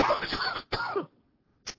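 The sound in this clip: Throat clearing from someone with a dry throat: a rough, rasping clear followed by a second shorter one, then a brief faint burst after a pause.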